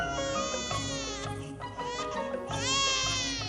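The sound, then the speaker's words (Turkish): A baby cries loudly and without pause, a high, wavering wail with strained sobbing breaks, swelling louder toward the end. “Susturun şunu ya. Artık dayanamayacağım. Ha, biri ağlıyor.”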